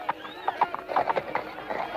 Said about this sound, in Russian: Что лошадью топчешься-то? Становись в стремя.